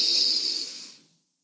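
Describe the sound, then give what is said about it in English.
A deep inhale during a guided breathing session, heard alone as a breathy, airy hiss that gradually fades into silence. “Third breath, deep.”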